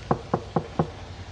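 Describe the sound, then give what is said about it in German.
Four knocks on a door, evenly spaced and moderately loud, over faint background noise. “Nach ungefähr 2 Tagen klopft es an seiner Tür.”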